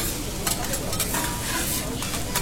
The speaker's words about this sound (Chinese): 然后已经打了三个蛋在里面。我觉得大师在打蛋的过程当中，在炒蛋的过程当中，是蛋黄和蛋白在当中翻腾啊、均匀啊、搅拌啊